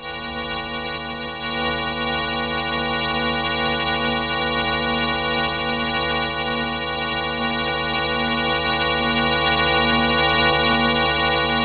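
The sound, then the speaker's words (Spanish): A synthesized, buzzy harmonic drone turns a rising star's brightness into sound, with atmospheric extinction shaping it. The tone steps up in loudness early on, then holds fairly steady and grows slightly louder toward the end. “Así que los escuchantes van a poder escuchar el ascenso de una estrella en el cielo.”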